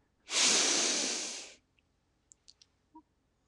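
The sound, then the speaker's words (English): A deep breath let out in one long, loud, airy exhale that rises quickly and tapers off, followed by a few faint, short clicks in otherwise quiet surroundings. “Hold it. Let it out. Taking another breath.”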